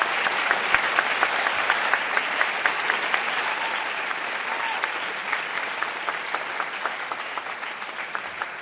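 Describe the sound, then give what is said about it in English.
Audience applause at a debate event, a steady, dense wash of clapping that holds evenly from start to finish without a pause. “when I raise my arm like that, some applause would be appreciated.”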